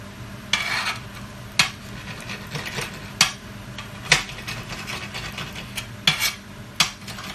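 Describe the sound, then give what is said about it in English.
A knife chops parsley in a kitchen with several sharp, irregularly spaced cutting knocks, some louder than others, over a faint steady background and no talk. “so let's get some parsley. Okay, I'm just going to give it a quick chop.”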